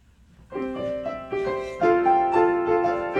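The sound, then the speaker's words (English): Intro music of sustained, harmonic chords that enter after a quiet start and build in steps, adding layers until a fuller, steady sound holds to the end. “I'm playing the season 1 intro.”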